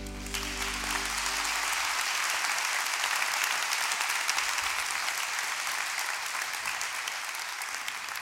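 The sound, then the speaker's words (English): Warm applause from a church audience welcoming a pastor, steady and even for about eight seconds, with a low musical tone fading out at the very start. “So Summit, at all of our campuses, I want you to put your hands together in thanks to God and as a warm welcome to Pastor Chris Green.”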